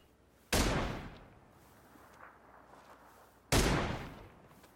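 Two loud gunshots in a video game, about three seconds apart, each a sharp blast followed by a long decaying tail.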